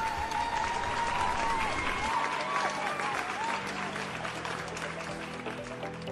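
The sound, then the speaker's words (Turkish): Audience applause for the participants of an event: dense, sustained clapping that stays steady and fairly loud for the whole stretch, with no break or clear fade. “onları hep beraber alkışlayalım istiyorum”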